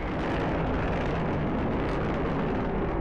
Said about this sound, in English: That's the last time Concorde will ever be cleared from JFK for takeoff. There, she's rocking. She's rolling?